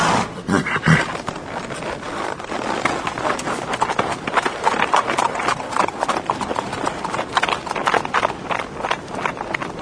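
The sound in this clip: Horse hooves clip-clop steadily on the ground, with many rapid, loud hoofbeats running continuously through the whole stretch.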